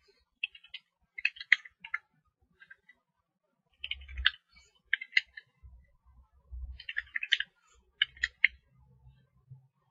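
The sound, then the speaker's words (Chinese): Keys clatter on a computer keyboard as a server login name and password are entered, coming in quick bursts of light clicks separated by short pauses, with a few soft low thumps. “输入服务器的登录名和登录密码。”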